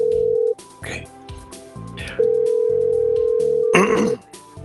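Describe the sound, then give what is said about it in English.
A telephone rings out while the caller waits for pickup: two long, steady, mid-pitched ringback tones separated by a gap, with short vocal sounds breaking in between and over them. “Come on. Pick up your phone. Come on. Pick it up. Come on.”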